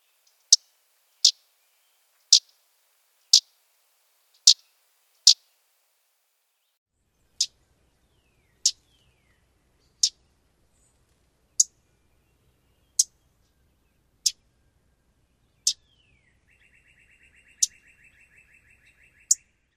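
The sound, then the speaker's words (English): Common yellowthroat call notes: sharp, dry chips repeated alone at uneven intervals, about fifteen in all, with a faint buzzy trill slipping in near the end. “Here are a few more examples of call notes. You can hear a few different calls in these tracks.”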